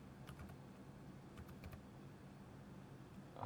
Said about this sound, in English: And let me go to Google again and type in Bitcoin